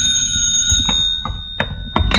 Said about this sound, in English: the telephone rang.